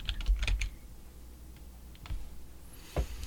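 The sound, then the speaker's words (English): Faint typing on a computer keyboard comes in a few short clusters of quick clicking keystrokes separated by quiet pauses, with no talking. “I typed in ant”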